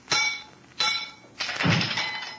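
Gas-weakened steel casing struck with a stick and shattering: three sharp, ringing metallic cracks in quick succession, the last one trailing into a longer rattling breakup.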